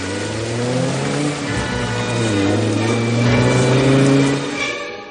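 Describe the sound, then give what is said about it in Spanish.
A 1950s convertible car starts and drives off, its mid-pitched engine revving loudly and climbing in pitch as it accelerates, holding steady before easing off at the end. “Luego se monta en su asiento y arranca el vehículo descapotable de Miles.”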